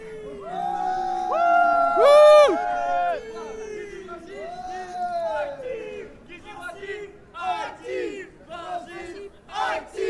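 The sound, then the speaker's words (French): Radio jingle built from loud, chanted crowd voices that swell into a big cheer early on, then break into quieter shouts and bursts of voices toward the end. “Voilà, on a des jingles pour la radio.”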